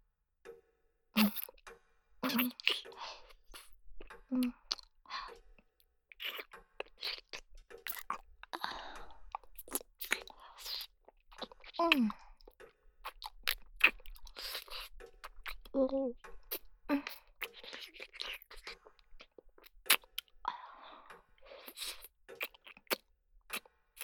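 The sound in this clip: Mandarin orange being chewed: moist, crunchy bites and soft smacking clicks repeating steadily throughout, with people talking in between the chews.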